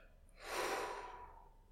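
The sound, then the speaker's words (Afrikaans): One slow, deep breath during a guided breathing exercise, drawn in through the nose and let out through the mouth. It is soft and airy, swelling and then fading away. “haal so 'n paar keer lekker diep saam met my asem en dan sal ons begin. Asem in deur jou neus en uit deur jou mond.”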